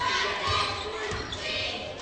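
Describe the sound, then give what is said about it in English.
A basketball is dribbled on the court during a women's game, with a few thudding bounces against a steady murmur of crowd noise. “Dribbles to the foul line.”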